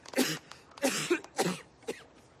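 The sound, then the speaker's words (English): A man coughing up blood in a fit of harsh, wet coughs: four stronger coughs with a few weaker ones between them, fairly faint and not under any talk. “He coughs up blood.”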